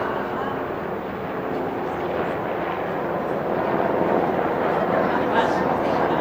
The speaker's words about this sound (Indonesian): Helikopter.